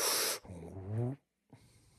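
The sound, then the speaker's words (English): A forceful sniff drawn in through the nose opens with a loud breathy hiss, then gives way to a voiced, hum-like tone. After a short silence comes a fainter, breathy rustle. “There's so much energy from his sniffing.”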